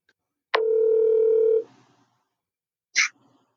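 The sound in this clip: Telephone line tones as a call is placed: a steady, even dial tone lasts about a second, then after a pause a single short, bright electronic beep sounds, with no voices.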